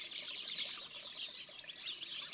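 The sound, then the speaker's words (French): Blue tit song made of thin, very high-pitched notes in two quick bursts. A short run of three notes comes first, then after a pause a longer series of about six notes. “C'est qui ? La mésange bleue, pardi. Elle est facile à reconnaître. On dirait un petit éclat de rire très aigu.”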